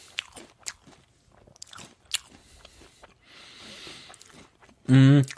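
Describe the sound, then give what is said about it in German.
Crisp crunching and chewing as someone eats Smacks cereal, with a few sharp bites scattered between bouts of speech and one loud burst near the end. “Nee, ich esse Smacks, keine Chips”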